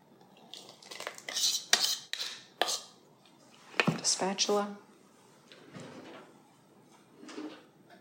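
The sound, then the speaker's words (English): Bowl and utensil clatter comes from wet ingredients being dumped into dry ones and mixed in a bowl. Several irregular bursts of clinking and scraping arrive in uneven clusters, with quieter gaps between them. “We're dumping the wet into the dry. And then we're going to mix it, just barely mix it. And it'll get thicker as you mix.”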